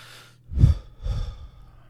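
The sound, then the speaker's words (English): Two heavy breaths from someone catching their breath after talking fast, a deeper inhale followed by a softer exhale, set against near silence. “I tend to talk really fast sometimes and forget to breathe, so I have to do it after.”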